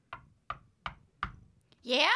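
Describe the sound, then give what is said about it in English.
Knocking on the front door of a farmhouse: four loud, evenly spaced raps with short hollow decays, then a brief voice calls out from inside. “I knocked on the front door of the farmhouse.”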